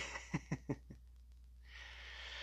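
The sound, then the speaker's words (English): A deep breath in and out: a few short breathy puffs, then a long, soft, steady rush of air that swells and holds to the end. “let's take a deep breath in and breathe out all of that chaos we were just talking about”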